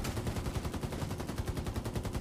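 Rapid automatic gunfire in a video game crackles out in a fast, evenly spaced stream of many shots, loud and unbroken.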